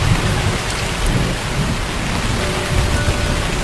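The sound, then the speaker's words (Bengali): Heavy rain pours down during a gusty storm as a dense, steady hiss of drops. It stays loud and unbroken from start to finish. “বৃষ্টিকে বোধ হয় ফাঁকি দিতে পারবো না। জলের ফোঁটা বেশ বেড়ে উঠল।”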